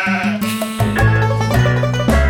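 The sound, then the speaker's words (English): Sheep bleat over a backing of sustained musical notes, with a few wavering calls spread across roughly two seconds. “Small sheep, smaller sheep, and little lambs like you.”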